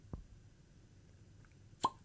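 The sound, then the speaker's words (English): A cork pops out of a bottle as it is uncorked: one sharp pop with a brief ringing tone, coming after a soft, low thump earlier in the otherwise quiet moment. “Let's uncork it.”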